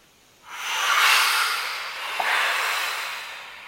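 A deep breath drawn in during a relaxation exercise gives a long, soft, airy hiss that swells and fades, followed by a second, gentler breathy swell.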